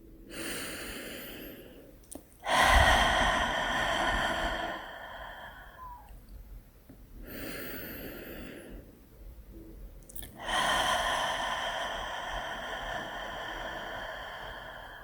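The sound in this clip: Slow, deep breaths drawn in through the nose and let out through an open mouth, with a few long, airy breaths separated by short pauses and no talking.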